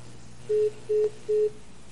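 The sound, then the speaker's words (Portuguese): A dropped phone call followed by three short, evenly spaced, mid-pitched tone beeps on the line over faint background hiss. “Caiu a ligação da amiga aí, não é?”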